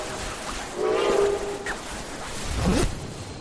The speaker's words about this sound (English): What is that? That's a train. An honest-to-God train.